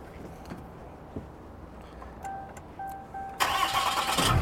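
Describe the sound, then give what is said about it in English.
A Cummins engine in a vehicle with towing mirrors starts: faint clicks and a couple of brief electronic chime tones, then the engine catches abruptly and settles into a loud, rough, steady running roar to the end. “It's a Cummins. How can we not go for a ride? Hopefully it starts. Hold on a second. All right, see if it starts.”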